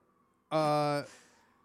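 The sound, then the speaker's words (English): A brief emergency-vehicle siren blast from outside: a loud, buzzy, flat tone lasting about half a second, then a faint fading tail over a low background hum. “I think those sirens are going to pick up. We're leaving it in.”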